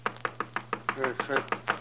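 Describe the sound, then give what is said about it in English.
Knocking on a door: a rapid, evenly spaced series of about a dozen sharp raps, fairly faint, over a low steady hum. “Who do you suppose could be knocking at the door this time of the”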